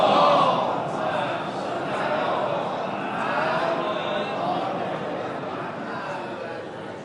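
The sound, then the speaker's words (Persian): Mourners at a mourning gathering for Imam Husayn loudly chant salawat in unison, a dense and sustained wall of many voices that holds steady at high volume throughout. “سلامتی خودتون، همه عزاداران ابا عبدالله علیه السلام بلند صلوات بفرستید.”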